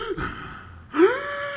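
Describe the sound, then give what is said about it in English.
A man's voice imitates the deep, heavy breathing of someone hunched over: a few slow, breathy gasps and sighs, with the second one louder and more strongly voiced. “he is like kind of hunched over and doing this deep, deep breathing, like,”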